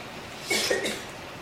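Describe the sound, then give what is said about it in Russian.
A single short cough comes from someone whose lungs are aggravated by speaking. It is a brief, breathy burst over a steady background hiss. “As soon as I start speaking, it aggravates my lungs. Как только я начинаю говорить, это напрягает мои легкие, и я начинаю кашляться.”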